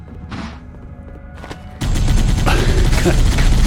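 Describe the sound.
Video game gunfire bursts in abruptly after a couple of quieter thuds, becoming a loud, continuous, crackling barrage of shots.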